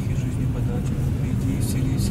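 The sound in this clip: A car drives along with a steady low engine and road rumble, and a man talks over it throughout.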